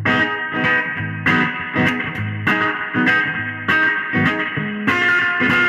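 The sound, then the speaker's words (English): Guitar played through a spring reverb effect with a very small tank: loud, rhythmic chords, many strikes in a steady pattern, each with a short ringing, slightly splashy tail. “It gives you a spring reverb sound for sure, but it's a very small tank.”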